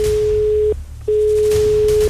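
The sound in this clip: A telephone ringing tone sounds as a radio show calls a listener to award a prize: a loud, steady single-pitched tone breaks off for a moment and then resumes, unchanged.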